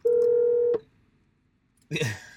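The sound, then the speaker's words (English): A single steady electronic phone tone signals an incoming call and lasts under a second. After a short silence, a brief burst of voice follows. “phone call coming in, beautiful”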